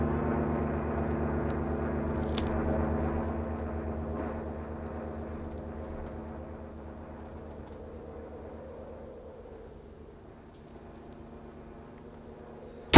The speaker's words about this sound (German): Sie landen ja nicht! Sie fliegen ja weiter!